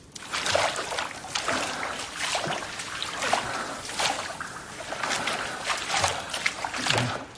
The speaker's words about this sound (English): The man gets to his feet and staggers away from the bench, wading through the shallow water.